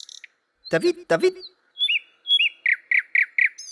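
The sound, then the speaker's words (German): A thrush, a brown-backed relative of the blackbird with a beige, dark-spotted breast, sings: a couple of harsh chirps, then a run of short, clear, high whistled notes repeated in quick succession. “In Lautschrift hielt er unter anderem auch den Gesang der Drossel fest.”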